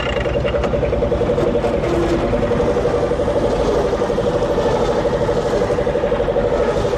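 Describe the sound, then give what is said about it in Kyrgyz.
A car engine runs as the driver brings the car to a stop, giving a steady, loud drone with a constant tonal hum. “Азыр мен машинем менен токтотуп коёюн.”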